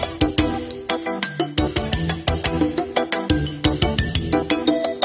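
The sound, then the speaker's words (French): Video game music from a 1992 Roland SCC1 MIDI sound card with 24-voice polyphony and nine percussion sets: a lively tune of sharp, punchy notes and percussive hits in a steady, brisk rhythm, without voices. “En 92, ça sonne comme ça, sur une Roland SCC1 MIDI, polyphonie 24 voix, 9 jeux de percussion, du grand luxe.”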